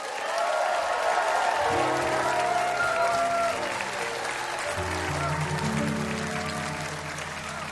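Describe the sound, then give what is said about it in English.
An audience applauds and cheers as a country singer is brought on, a steady roar of clapping. Sustained band chords soon start beneath it and carry on as the applause slowly thins. “Now, here to sing That's All, make some noise for Neil McCoy.”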